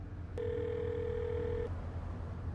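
A flip phone's dial tone plays as a quiet, steady, single-pitched tone that starts and stops abruptly, lasting just over a second over a low background hum.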